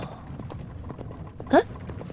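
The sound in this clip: Hooves of a horse pulling a carriage clip-clop in a steady, even rhythm of many light knocks throughout.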